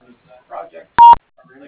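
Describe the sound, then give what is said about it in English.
A single telephone keypad tone sounds on a voicemail line as a short, loud, steady dual-pitched beep. Faint murmured talk comes before it and after it. “To leave a message, please press 1 or wait for the beep”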